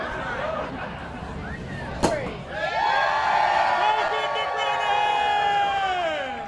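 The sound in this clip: A champagne bottle is sabered open for a raucous crowd at Brennan's restaurant. A single sharp crack cuts through murmuring voices, and loud cheering and whooping swell right after and carry on to the end.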